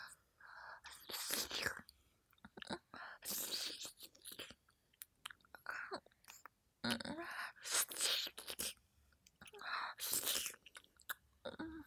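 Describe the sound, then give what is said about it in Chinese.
Close, moist chewing and crunchy bites of food come in irregular bursts, mixed with soft breathy whispering, fairly quiet overall. “挖干净一点，全部吃了。”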